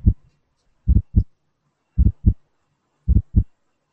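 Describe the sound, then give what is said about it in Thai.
Fast, abnormal heartbeat sounds as heard through a stethoscope: low, dull thumps arriving in close pairs, three paired beats standing clear against near silence. “หัวใจมันเต้นเร็วนะ บางทีฟังก็อาจจะฟังฟังไม่ชัดด้วยอะไรเงี้ย เป็นเป็นบอกไว้ว่าว่าเสียงหัวใจฟังยากอยู่ อืมลองฟังเล่นๆ ดูละกัน”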